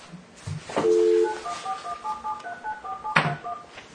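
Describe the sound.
Touch-tone keypad beeps from a telephone being dialed during a property appraisal board hearing, a quick string of short tones at differing pitches over low room noise, with a few brief thumps before and after.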